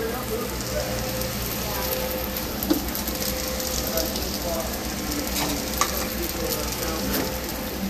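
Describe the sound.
Hash browns frying in a pan give a steady sizzling hiss with crackles. A couple of faint clicks rise briefly above the even texture.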